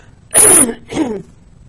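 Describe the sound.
Two loud coughs from a man interrupting a spoken interview, the first longer and harsher, the second shorter and softer, then quiet.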